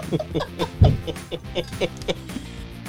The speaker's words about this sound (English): those are birds. Those are birds.